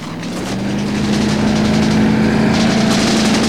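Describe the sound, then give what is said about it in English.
Motorboat engine drones as the boat pulls out into a lagoon and powers away, a steady, loud, low hum that swells slightly at the start and then holds even throughout. “The boat powers away.”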